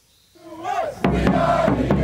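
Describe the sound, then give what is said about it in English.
American soccer fans in Doha cheering at the World Cup during the US team's first World Cup match in eight years, a tie against Wales; loud crowd shouting rises from near silence and jumps sharply louder about a second in. “Cheering on the Stars and Stripes in their first World Cup match in 8 years, American fans in Doha.”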